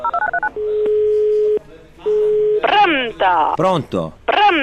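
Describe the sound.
Touch-tone keypad dialing of a telephone number: a quick run of short beeps, then two longer steady tones, followed by a voice talking.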